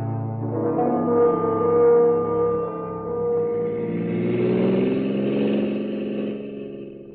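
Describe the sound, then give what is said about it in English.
A car engine hums steadily as the car drives to the airport, a mid-pitched, harmonic drone that swells and then climbs in pitch through the second half, with no voices over it. “You didn't have to drive me to the airport”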